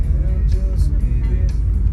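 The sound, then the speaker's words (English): A car engine rumbles steadily while the car drives around looking for a parking spot. The low, even hum carries light fluctuations and no clear revving. “Where am I going to park? I don't know. I'm driving around looking for a spot.”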